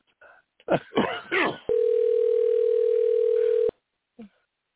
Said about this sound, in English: All right, I got his number. I'm dialing him back. I'm dialing him back. We'll see if he answers.